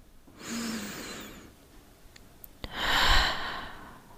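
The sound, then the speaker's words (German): A slow, deep breath in and out, soft and airy: a gentle inhale swells and fades, then after a short pause a fuller, breathier exhale follows, with no talking. “Schließe sanft deine Augen und nimm einen tiefen Atemzug.”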